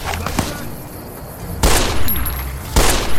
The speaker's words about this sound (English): Alright, I'm just gonna shoot him in the head.